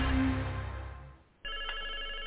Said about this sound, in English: I've got a phone ringing that shouldn't be ringing